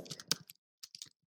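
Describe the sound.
Typing on a phone: faint, quick taps in two short bursts separated by a brief pause.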